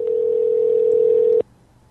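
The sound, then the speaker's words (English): A steady ringback tone from a call to a Verizon Wireless mobile phone that rings out unanswered. One even, unbroken tone holds for about a second and a half, then cuts off abruptly into near silence. “Let's just ring his phone nonstop.”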